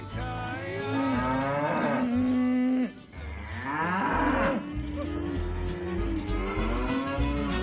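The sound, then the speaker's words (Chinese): Calves mooing as a cowboy drives them along a cattle trail: many long, loud, overlapping moos with wavering pitch, running almost without pause and dipping only briefly midway. “所以牛仔还是一边唱着歌一边赶着这些小牛。”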